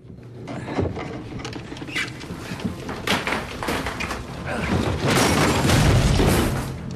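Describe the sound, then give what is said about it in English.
A heavy wooden counter scrapes and topples onto a hatch: a series of scuffs and knocks builds to a loud, heavy, rumbling crash near the end. “Moving round to the other side of the heavy wooden counter, David grabs a steady hold of it and pushes it over, covering the hatch.”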